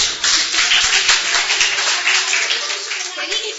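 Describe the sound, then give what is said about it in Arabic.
Group clapping rises after a child's answer during a lesson with children, a dense patter of many hands that runs through the whole clip, with voices faintly mixed in. “برافو انجن، عايز تسقيفه جامده.”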